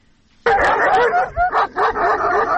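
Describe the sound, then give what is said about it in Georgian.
Stray dogs in Lagodekhi, Georgia, bark and yelp loudly and almost continuously, sharp yips overlapping in an excited chorus that begins abruptly and carries to the end. “ლაგოდეხში ეს ხმა განუწყვეტლივ არა, თუმცა პერიოდულად დღის და ღამის განმავლობაში ისმის. აქ ასობით უპატრონო ძაღლში ხვდებით”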